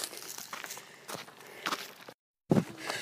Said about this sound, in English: I'm back walking up the hill